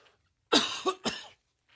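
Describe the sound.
A person coughs once at a microphone, a rough throaty cough that breaks into two or three quick bursts, fairly faint and alone with near silence around it.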